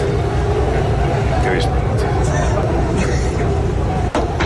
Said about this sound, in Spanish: Vamos a emitirlo ya para que se pueda ver. Ahí está, desde el interior del autobús.